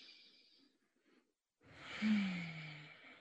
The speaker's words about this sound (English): And then just take like 5 really deep breaths. I'm going to do one right now because it just feels good.